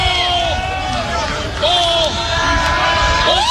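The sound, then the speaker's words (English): A crowd cheers and murmurs in the stands at a Nebraska Huskers college baseball game in the 2026 season, reacting to balls thrown out of the zone. Dense, continuous crowd noise runs under a man's commentary and swells slightly midway. “Well, if with every pitch out of the zone, the crowd gets a little bit louder and louder.”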